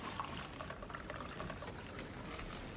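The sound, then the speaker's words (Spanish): Coffee pours from a coffee maker into a cup in an office, a faint, steady trickling patter that runs evenly throughout without pause. “Camina hasta la cafetera. Se sirve café.”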